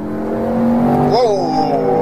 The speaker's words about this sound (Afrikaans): Maar dis wat 500 kilowatt vir jou doen in 'n Defender